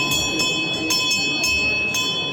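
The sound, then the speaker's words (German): A hand bell is swung to signal the start of a performance at a theatre studio stage. It rings in a handful of evenly spaced bright strokes over a sustained metallic tone. “dem Kollegen vom Abenddienst, der die Glocke schwang”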